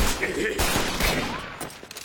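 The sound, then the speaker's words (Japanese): Gunfire from a gun that fires many small pellets at once, a dense, loud, continuous barrage of overlapping blasts and cracks with no clear gaps between shots. “一度に小さな弾を複数発射している。貫通力は低いが命中率は高い。”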